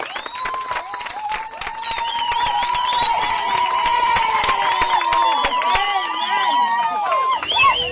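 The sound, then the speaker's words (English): An audience applauds as a performer arrives on stage at a community event, with dense, steady clapping throughout and long, high-pitched wavering vocal cries ringing above it. “Without further ado, please give Mamban a round of applause at the stage.”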